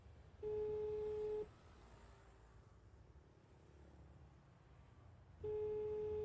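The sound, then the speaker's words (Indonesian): Ringback tone of a telephone call ringing on the line: a faint, steady, mid-pitched tone lasting about a second, then a long silent pause before it sounds again, over low background noise. “Coba mak telepon lagi lah Aris kok.”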